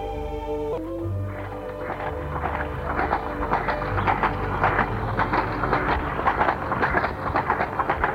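Horse hooves clip-clop as a rider rides off before a storm, many steady rhythmic hoof beats continuing at a moderate level after a brief tonal opening.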